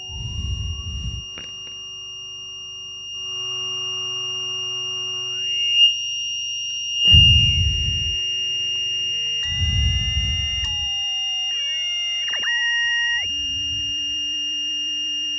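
A synthesizer tone run through a Wasp filter: a steady, high electronic whine with shifting lower tones, a short upward glide, warbling partials and a few low rumbling noise bursts in between.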